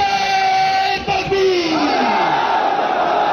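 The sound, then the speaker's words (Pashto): Crowd chanting slogans at a peace gathering in Sadda, Kurram: many voices shouting in unison, loud and sustained throughout with no pauses. “دا نارې د کورمې په صده کې د امن په سوم په نوم وستل شوې د یوې غونډې پر وخت وهل شوې.”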